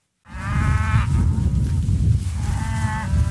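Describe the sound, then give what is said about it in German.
Black Angus cattle and calves grazing on pasture, with two long, drawn-out moos rising over a steady low background rumble, the second call quieter than the first. “Der Besuch beeindruckt die Rinder überhaupt nicht. Ohne mit der Wimper zu zucken, grasen sie weiter, als Sebastiano Lasso”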